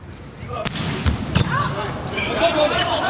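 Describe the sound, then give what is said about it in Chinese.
Volleyball strikes during a men's Asian Championship group match between China and Iran, a serve followed by a three-player block; a few sharp ball thumps cut through a commentator's excited talk. “好发球，哇，中国队三人集体拦网得分。”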